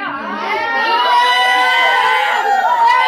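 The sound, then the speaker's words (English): An audience shouting out mixed yes and no reactions while rating Starbucks, overlapping raised voices, many sounding young, forming a loud, tonal babble that builds slightly and stays sustained. “Sounds like the audience is a mix of yays and nays. Yes. I think the audience has mixed opinions.”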